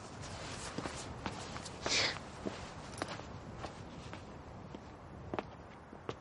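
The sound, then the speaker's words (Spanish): Faint footsteps cross rocky ground on a rocky outcrop in the countryside, with many irregular, soft crunching steps over a low background hiss. “Él camina sobre las rocas con la varita en la mano.”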